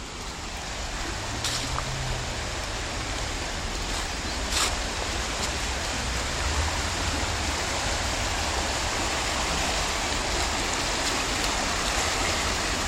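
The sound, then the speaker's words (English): Rushing water pours without a break, a dense, even hiss and roar that stays steady in loudness from start to finish, with no voices. “This is the sound of rushing water.”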